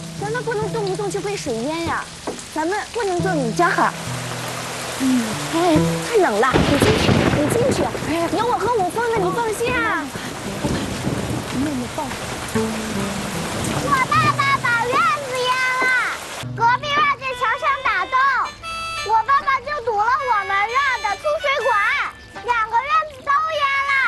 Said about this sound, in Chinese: 看这么大的雨，咱们院子都淹了，隔壁院子也淹了